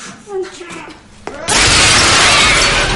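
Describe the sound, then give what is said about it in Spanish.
A glass pane is smashed by a zombie in a horror-comedy film scene: quieter voices and movement come first, then a sudden loud crash bursts into sustained bright shattering that runs to the end. “el zombie rompe el cristal y ataca a la francesa.”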